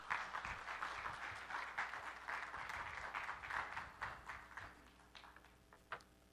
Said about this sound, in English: So much. Y'all give them another hand.